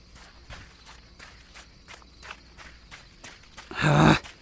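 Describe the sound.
Someone runs while carrying another person on their back, making many quick, even, soft footfalls in a steady rhythm. A short, louder rushing burst ends the sequence.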